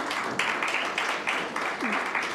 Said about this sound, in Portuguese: Uma salva de palmas para a nossa convidada.